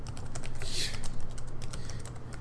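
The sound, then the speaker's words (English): Typing on a computer keyboard: a quick, uneven run of clicking keystrokes that continues throughout over a low background hum. “And then I type in movie posters”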